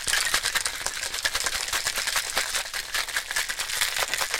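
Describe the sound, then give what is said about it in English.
A cocktail being shaken in a shaker, with ice rattling in a fast, steady rhythm of bright, clattering hits that continue the whole time. “Cocktail shaking sounds for John. He's cutting all this out. He doesn't care about your cocktail sounds.”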